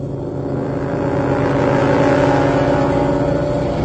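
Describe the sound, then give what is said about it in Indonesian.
Motorbike throttle revving as the rider pulls away and heads home at night, a steady buzzing engine drone with strong low harmonics that grows slightly louder midway and holds. “Aku pun lanjut menancapkan gas motorku dan segera menuju rumah.”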